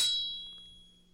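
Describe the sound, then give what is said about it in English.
A katana, the Japanese samurai sword, rings out as in movies with a single bright, high metallic shing that fades away steadily over about a second, quiet and alone. “It is a samurai sword, the katana, the famed Japanese sword.”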